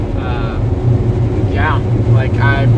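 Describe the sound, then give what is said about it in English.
Steady low road and engine rumble from a Jeep driving down a highway, a constant droning bed with people talking over it. “We're driving down the highway right now. We've got people taking pictures of the deer in the back of the Jeep, which is pretty cool.”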